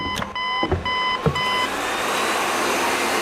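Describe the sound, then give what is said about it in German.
Nutrient pump for an artificial body starting up: repeated electronic beeps and a few dull thumps, then a steady broad hiss takes over and runs on alone. “Da, starten Sie die Nährstoffpumpe.”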